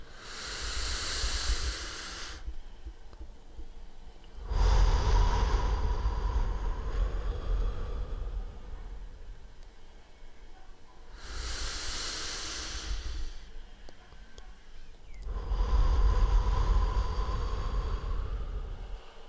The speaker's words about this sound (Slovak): Skús sa hlboko nadýchnuť a hlavne do brucha.